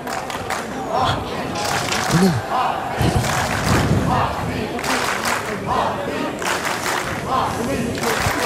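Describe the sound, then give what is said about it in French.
A crowd at a sports match cheers and applauds without letup, a dense wash of clapping and shouts with a commentator speaking over it. “Le public qui soutient Collignon, qui l'encourage.”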